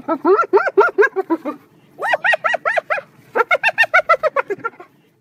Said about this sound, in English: That's the so-called laughter of a spotted hyena.